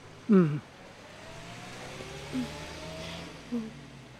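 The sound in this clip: A car drives along Brand Boulevard, its engine a steady low hum throughout, with a few short vocal sounds breaking in over it.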